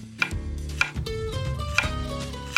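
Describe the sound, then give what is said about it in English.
Knife chopping iceberg lettuce into big chunks: a few sharp, crisp chops spaced apart, set against a steady tonal background. “It's gonna cut my lettuce in big chunks.”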